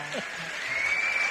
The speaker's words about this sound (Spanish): Lo mejor son los aplausos.